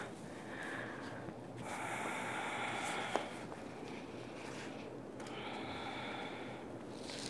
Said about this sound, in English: And that Darth Vader breath is here to support you. So if this becomes intense at all, you just put that mask back on and breathe into it.